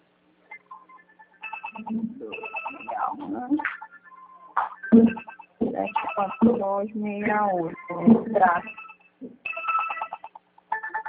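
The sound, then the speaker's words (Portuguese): A phone rings with an incoming call, playing a bright electronic melodic ringtone whose short tonal phrases repeat steadily throughout. “como é que ela está ligando? Não posso atender agora”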